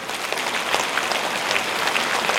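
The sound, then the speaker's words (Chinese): Audience applause at a ceremony, a dense, even wash of many hands clapping steadily and fairly loud, with no voices over it. “现在让我们用最热烈的掌声恭请我们尊敬的卢军宏台长”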